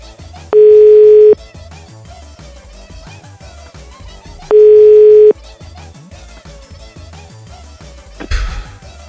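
A telephone line tone sounds as two long, steady, mid-pitched beeps about four seconds apart, loud over a faint background, with a brief noise burst near the end.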